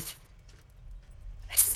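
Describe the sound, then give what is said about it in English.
A voice imitates a winged, feathered creature sneezing: a brief breathy hiss at the start, a quiet stretch, then a sharper, louder burst of sneeze-like noise near the end. “Just sneezes.”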